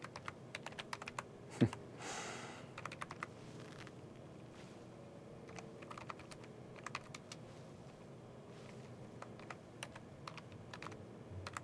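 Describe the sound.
Commands being typed on a computer keyboard: many faint, irregular key clicks with short pauses between runs, plus one louder thump early on.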